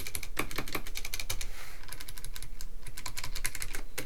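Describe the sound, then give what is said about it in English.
Rapid typing on a computer keyboard: a dense, steady stream of many crisp, bright key clicks with no pauses, heard alone without talk. “Let's type some stuff to see if we can sync up audio with what I'm typing.”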